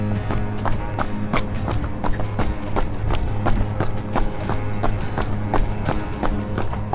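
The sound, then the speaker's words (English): Footsteps of people jogging outdoors in the cold, a steady run of many quick, crisp impacts at an even pace over a constant low hum, with no talk. “Want to do the running? Yeah, let's just run. To the box? To the box. Jog or run? No, jog. Jog.”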